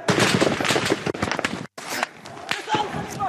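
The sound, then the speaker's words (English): Gunfire as police and army shoot bullets and tear gas at protesters in Bahrain: many sharp, loud bangs in an irregular burst, mixed with crowd noise and voices. “The police and the army opened fire, using tear gas and bullets.”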